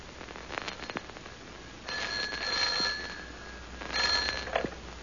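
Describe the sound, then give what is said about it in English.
A telephone rings in two short bursts of bright, metallic trilling, separated by a brief pause, with faint background hiss and no voices. “Almost at once, the telephone rang.”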